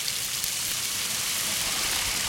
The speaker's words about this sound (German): Also kurz abspülen.